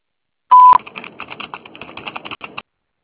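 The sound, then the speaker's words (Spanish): A loud, short answering-machine beep sounds once as a single steady tone. A quick run of light clicking taps follows it for about two seconds. “Después del tono, grabe su mensaje.”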